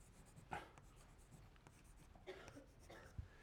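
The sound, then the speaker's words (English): Faint scratching of a pen writing numbers in pink, a few soft strokes over quiet background hiss. “And then the zero, the two-year zero in America, which pays off 1-1-1 here, so I'll just write that in pink.”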